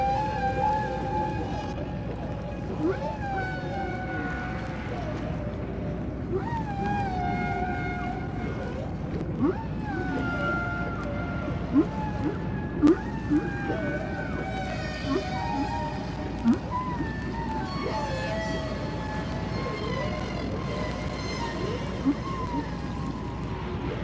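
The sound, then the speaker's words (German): Whales sing underwater in their mating song along warm coastal waters. Many tonal calls with gliding, harmonic-rich pitches rise and fall in overlapping phrases over a steady low rumble, with occasional brief pulses. “Es ist ihr Liebeslied, was wir da hören. Denn die Wale treffen sich an den Küsten im warmen Wasser,”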